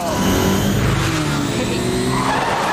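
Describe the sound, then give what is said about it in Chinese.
A car drift-parks with its tires screeching in a loud, continuous skid, its engine running underneath throughout. “我这个漂移停车帅吧？”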